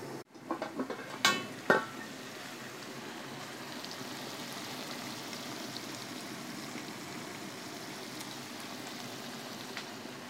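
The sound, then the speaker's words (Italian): Pasta drops into a pot of boiling water with a few light clinks at the start, then a quiet, steady bubbling hiss carries on. “Caliamo la pasta.”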